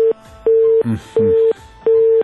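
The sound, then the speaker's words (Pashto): A telephone busy signal after a dropped call pulses as steady mid-pitched beeps, three full tones with equal silent gaps after the tail of a first, and faint low noise in between. “له بده مرغه د عبدالوارث امیری تماس مو سره قطع شو”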